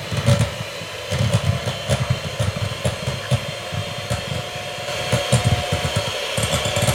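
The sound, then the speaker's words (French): An electric hand mixer whips on its first speed setting, giving a steady motor whir with rhythmic low thumping pulses throughout and no speech. “soit au batteur à main ou au batteur électrique, mais préférable faire un batteur électrique, ça va beaucoup plus vite. Première vitesse. Et c'est parti.”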